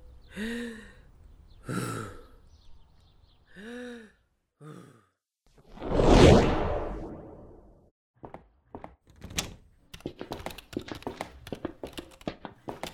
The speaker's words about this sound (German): Erinnern Sie sich noch an die Atementspannung, die wir letzte Woche gelernt haben? Einatmen und ausatmen.